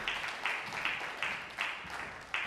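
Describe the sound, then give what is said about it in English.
Rhythmic clapping from a church audience, fairly quiet, with sharp claps landing at a steady, regular beat over a soft wash of noise. “Encourage them. Send them up here with a clap.”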